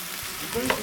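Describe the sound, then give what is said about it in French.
Bacon lardons sizzling in a pan for a traditional quiche lorraine, a soft continuous crackle with a brief stirring scrape near the end. “Qu'est-ce que j'entends ? C'est quoi ce bruit ? Papote, popote. Là, on fait revenir un petit peu les lardons pour faire une quiche lorraine traditionnelle.”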